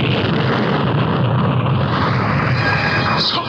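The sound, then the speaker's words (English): A bomb explosion in an audio drama comes through as a loud, sustained, rumbling roar that holds steady and dies away only slightly near the end, with no voices. “What is it? A bomb!”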